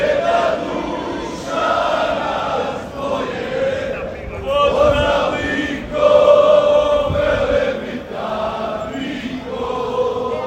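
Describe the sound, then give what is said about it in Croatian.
Croatian football fans sing a supporters' chant in Leipzig during the European Championship, a loud mass of voices rising and falling in sung phrases with rhythmic swells. “Od jutra se pjevalo, mnogi su stigli autima, vlakovima, zrakoplovima, i to iz raznih dijelova Hrvatske i svijeta, no ujedinjuje ih jedno, navijačka pjesma.”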